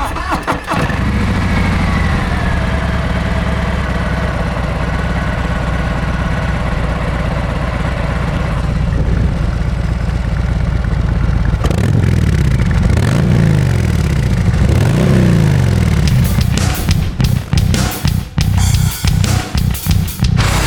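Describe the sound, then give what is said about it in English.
Harley-Davidson FXDR motorcycle engine idling with a deep, steady rumble, then blipped repeatedly so the revs rise and fall. Choppy bursts of throttle follow toward the end, loud and alone. “standing outside MotoMart in Lower Hutt, and what I've got in front of me is a Harley Davidson FXDR”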